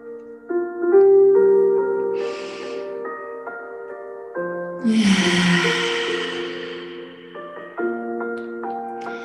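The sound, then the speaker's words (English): A long exhale out through the mouth during a breathing meditation, a soft, airy rush lasting nearly three seconds over gentle sustained music, with a shorter breath heard earlier. “I'm gonna take one long exhale out through our mouth.”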